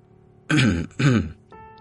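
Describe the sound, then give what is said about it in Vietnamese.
Soft throat clearing in two short, rough bursts separated by a brief pause, heard alone without any talk. “Cổ Lăng thấy tình thế như vậy thì khẽ hắng giọng một cái”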